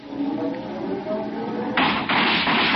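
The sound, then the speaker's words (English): A car creeping forward in low gear as its bumpers nudge gates open: a low engine drone gives way to a sudden broad scraping rush that holds to the end. “If you'll go ahead in low gear, your bumpers will just nudge them open.”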